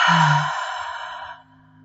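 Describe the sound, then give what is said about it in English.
A deep breath in through the nose released as one long, airy exhale through the mouth during a heart chakra meditation, steady and fairly soft before trailing off into quiet. “Taking a deep breath in through the nose and exhale out the mouth.”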